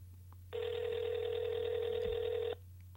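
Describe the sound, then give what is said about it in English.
Ringback tone of an outgoing telephone call: one steady, buzzy tone that lasts about two seconds and then stops, over a low constant hum. “Is she going to pick up the phone? The anticipation is killing me.”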